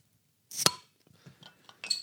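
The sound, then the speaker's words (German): A beer bottle being opened gives one sharp, bright glassy clink-pop, followed by a few fainter clinks and rattles. No one speaks. “Aber jetzt müssen wir uns halt irgendwie vom Mikro wegbewegen, um das Bier aufzumachen. Ja. Also, ja. Wir kriegen das hin. Genau. Mal gucken, ob man trotzdem irgendwie einen Plöpp-Sound hier reinkriegt.”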